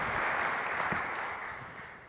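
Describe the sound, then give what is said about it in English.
Audience applause welcoming a guest onto a stage, dense and steady clapping that holds even and eases slightly toward the end. “Please welcome him on stage with a great hand.”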